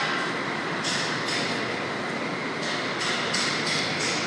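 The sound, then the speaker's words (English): Working railway station platform ambience in Dublin, a dense, steady rumble and hiss throughout, with a few brief brighter bursts rising from the wash. “This is the sound of Dublin Euston Railway Station at work.”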